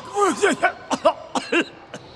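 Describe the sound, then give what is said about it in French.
Coughing from a tired old grandfather character in a children's musical tale: a series of short, hoarse bursts with a tonal, bending pitch, moderately loud and heard alone without talk. “Il a toussé.”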